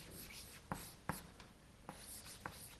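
Handwriting with a pen or pencil: soft, faint scratching strokes run throughout, broken by a few sharper taps as the writing instrument meets the surface.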